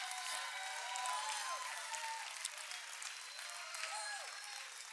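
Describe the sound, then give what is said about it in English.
A church audience applauds and shouts praise during a worship service. Dense, continuous clapping runs throughout, with scattered voices calling out. The whole sound is fairly faint. “can we give the Lord a shout of praise in this place? Can we make a joyful noise unto God, who's awesome?”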